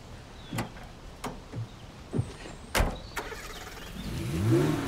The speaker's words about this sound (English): then gets in the red car